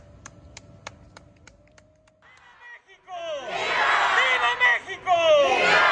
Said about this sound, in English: That is the battle cry that was uttered on September 16, 1810, in the town of Dolores Hidalgo, Guanajuato, by Miguel Hidalgo, marking the beginning of Mexico's fight for independence from Spain.